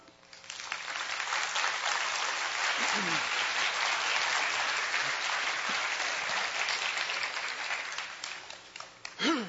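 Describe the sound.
An audience breaks into warm applause to welcome a speaker, the clapping swelling quickly, holding steady and full for several seconds, then thinning and tapering off at the end.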